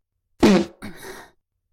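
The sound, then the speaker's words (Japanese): A fart comes in two parts: a loud, low, raspy burst, then a softer and longer sputter. It is heard alone with no talk. “あ、屁が出るわ。”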